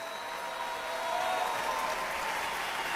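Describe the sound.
An enthusiastic audience applauds the maestro Manuel Quijano. The clapping is a soft, even wash that swells slightly midway, with a faint steady tone beneath it.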